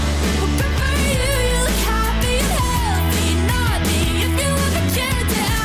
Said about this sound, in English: Of course, you know the track, it's a bop, but if you need a bit of a reminder, it sounds like this.